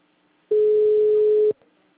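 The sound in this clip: A telephone ringback tone sounds while a call is placed: a single steady, mid-pitched beep lasting about a second, with near silence before and after.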